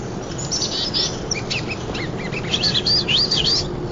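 A bird sings in the distance, a partial rather than full spring song: high, quick whistled chirps, sparse at first, then a livelier run of rising and falling warbled phrases near the end over a low steady background rumble.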